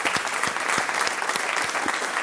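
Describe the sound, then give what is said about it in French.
Applause from a live studio audience at a public recording of a French literary show, greeting the author and guests. The clapping is dense and steady, fairly loud throughout, with no talk over it. “J'applaudis Antoine Volodine et nos invités.”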